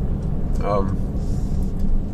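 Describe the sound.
Car interior rumble on a drive with a camera attached to the car: a constant low droning road and engine noise, with a person briefly talking over it.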